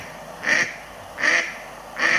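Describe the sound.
Mallard duck quacking: three short, raspy, nasal quacks at an even, unhurried spacing, each fairly loud and heard alone.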